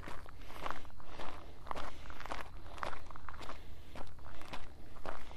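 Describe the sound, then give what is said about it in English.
Footsteps of someone walking up and down a hill, a steady, even rhythm of many crisp steps repeating about twice a second, moderately loud throughout with no voices. “So I am free to walk up and down this hill.”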